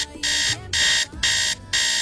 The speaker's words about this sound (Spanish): Muy buenos días, es momento de despertar. ¿Qué tal si listamos la alarma?